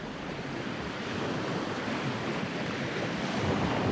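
Storm waves break on a rocky sea shore in a steady, dense roar of surf and wind with no distinct individual breakers, swelling slightly louder toward the end.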